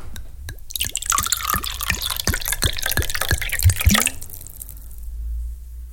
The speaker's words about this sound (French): Tonton Albert, je lance le jingle et c'est à vous.